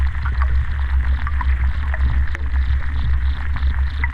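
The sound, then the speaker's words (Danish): Underwater sounds of a lake between two bunkers, picked up by a hydrophone: a loud, continuous low throbbing hum with faint crackles and scattered clicks running steadily throughout. “En undervandsmikrofon. Og så den opfanger de lyde, der er under vandet.”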